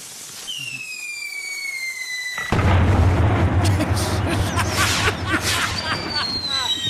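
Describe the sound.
Loud firework bomb explosion, preceded by high whistling tones, then a heavy boom followed by dense crackling and popping that continues to the end.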